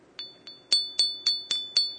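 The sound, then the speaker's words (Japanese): A piece of sanukite, a stone from Kagawa Prefecture on Shikoku, is struck repeatedly. Each sharp tap rings with a clear, high, metallic tone that decays quickly, in an even series about a quarter second apart. “このまさしくこのいわゆる鉄のような音してますけれども、これ石なんですね。 石です。はい、あの讃岐と言いましてね、はい、四国の讃岐、香川県の、はい、そこの石なんですね。”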